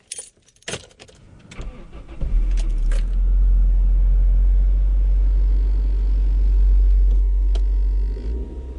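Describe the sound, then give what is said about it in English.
Keys jangle, then a car engine starts and settles into a steady, loud low rumble as the car drives out of the city. “Driving out of the city like so many others at this time of year”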